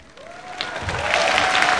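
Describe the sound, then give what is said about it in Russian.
A concert audience breaks into applause. Dense, steady clapping builds from quiet to loud, with a thin held tone running beneath it. “Купил билет, сел, уже получай радость. Уже хлопай, аплодируй. А здесь нужно обязательно напоминать. Ваши аплодисменты.”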